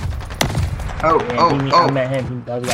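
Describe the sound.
Video game gunfire: a sharp crack rings out early, followed by further bursts of combat sound mixed with voices talking.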